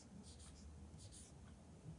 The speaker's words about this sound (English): Unfortunately, I can't draw humans to save my life. So I'm going to draw a stick man.